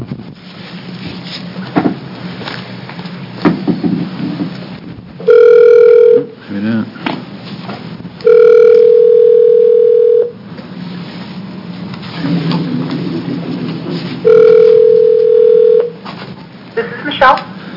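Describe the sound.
Telephone dial tone and keypad dialing heard over a narrow phone line, with several sustained steady tones broken by short beeps while people talk in between.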